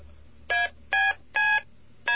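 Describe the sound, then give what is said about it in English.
Touch-tone style telephone keypad dialing tones: four steady, evenly spaced electronic beeps standing alone over a faint low hum, the last one cut short. “They sound like touch tones. In fact, they're very closely related to touch tones.”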